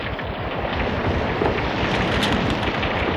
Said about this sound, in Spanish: Mira, Mimi, una gran llama cae sobre el torreón de Castro Reyes. Es como una lengua de fuego. El torreón tiembla.